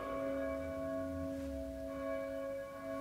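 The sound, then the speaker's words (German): Church bells ring as a fairly quiet, sustained blend of several overlapping tones that hum steadily throughout, with no clear separate strikes. “Mein Gott! Die Glocken! Was, schon wieder?”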